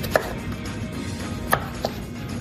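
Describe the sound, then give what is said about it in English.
A knife chops zucchini into strips, making a few faint, sparse, irregular cuts over a low, steady background. “let's cut up some zucchini and we'll try it again. I'll give you some strips to cut, okay?”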